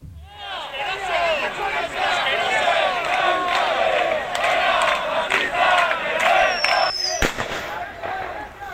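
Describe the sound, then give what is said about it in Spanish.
A riot crowd roars and chants at a protest on the Navarra university campus. Massed voices shout continuously and loudly, and a single sharp bang cuts through near the end. “Y este es el sonido de los disturbios que se producían con la convocatoria del agitador ultra en el campus navarro.”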